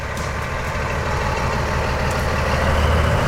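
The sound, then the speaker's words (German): Deep, steady diesel rumble from a V100 diesel locomotive of 1100 horsepower starting to move at a railway summer festival. The low, heavy engine drone stays loud and even throughout, with no other sounds over it. “So klingt es, wenn 1100 PS eine V100 Diesellok in Bewegung setzen.”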